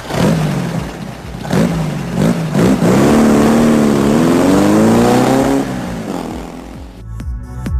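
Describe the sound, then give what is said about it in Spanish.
A motorcycle engine revs in a few quick blips, then holds a loud, wavering rev as it rides off. The sound cuts away sharply near the end, leaving faint noise. “Te subes a brum la moto y te vas.”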